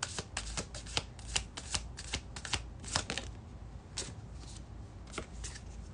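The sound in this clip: Tarot cards being shuffled for a card pull: soft, papery riffling and rustling in irregular bursts, faint and with no one talking over it.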